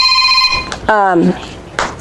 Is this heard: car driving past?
no